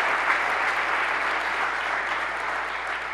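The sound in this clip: An audience at a political speech about Michigan breaks into steady, dense applause, continuous and even in loudness for about three seconds.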